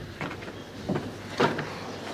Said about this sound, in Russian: Открывается дверь, входит Синяев.